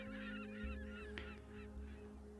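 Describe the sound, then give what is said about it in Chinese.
Seagulls calling as a ship's steam whistle sounds and a warship starts moving in a harbor. Overlapping, faint honking gull cries repeat over a low steady hum. “一声汽笛声，中兴舰开始启动，惊起一片海鸥。”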